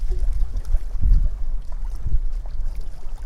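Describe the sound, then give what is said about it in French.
Lake water lapping against a wooden jetty: soft, low sloshes arriving irregularly, two fuller laps standing out, over a light rumble of wind. “revenez au lac, au clapotis du lac. Revenez à la stabilité des planches de bois du ponton.”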